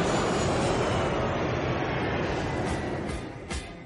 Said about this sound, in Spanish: Un avión de Airways desciende.